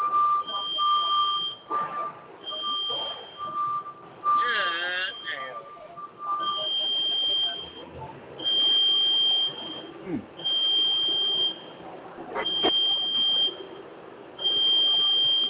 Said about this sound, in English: it's like a motherfucker to pull the fire alarm